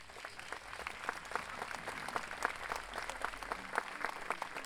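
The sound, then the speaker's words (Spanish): Dense, steady audience applause welcoming a university faculty choir onto the stage at a choral event, a continuous crackle of many hands clapping that holds at an even level throughout with no voices. “Recibimos con un fuerte aplauso al coro Lex de la Facultad de Derecho junto a su directora Ángela Largo.”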